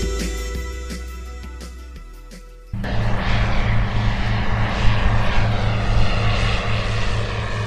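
The propeller engine of a Cessna light aircraft sets up a loud, steady drone that cuts in abruptly after a quieter opening, then holds an even, buzzing hum to the end.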